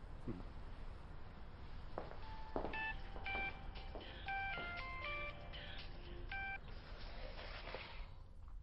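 A telephone number being dialed: a quick, fairly faint run of several short two-note touch-tone beeps over steady low background noise.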